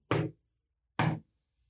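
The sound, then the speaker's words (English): Slow knocking on a door: two firm knocks about a second apart, each a single short rap, with silence before and after. “Where this is the normal human's approach to door knocking. And tell me if I'm lying, damn it. Walk slow. Knock slow.”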